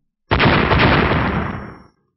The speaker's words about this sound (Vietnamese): Một tiếng nổ mạnh kinh thiên động địa, không gian xung quanh vỡ vụn toàn bộ.